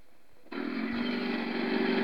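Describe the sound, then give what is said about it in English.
Engine exhaust through a stock MR-286 Sebring muffler, held at a steady idle: a loud, even rush with a low humming tone that starts abruptly about half a second in and holds unchanged to the end. “Okay, this is a stock MR-286 Sebring muffler.”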